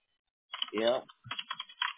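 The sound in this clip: Keystrokes on a computer keyboard as a password is typed in, a few quick, light clicks following a brief voice.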